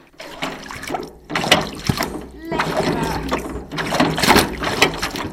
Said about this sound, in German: Dafür braucht ihr aber einen Wäschestampfer. Das kommt jetzt auf dein Wäschestück und jetzt drückst du den immer runter, immer wieder.